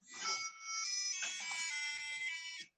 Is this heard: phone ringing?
yes